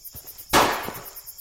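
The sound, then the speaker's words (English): A single warning gunshot fired into the air on foggy private property: one sharp, loud crack with a decaying tail, while insects chirp faintly and steadily throughout. “I'm going to let off a shot in the air.”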